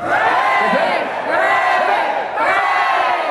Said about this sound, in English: He went hip hip and everyone heard hooray.